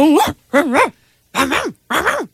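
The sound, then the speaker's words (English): A person imitates a Korean dog barking with the voice, giving four bark-like yelps with wavering, then falling pitch, loud and alone. “I did the Korean dog.”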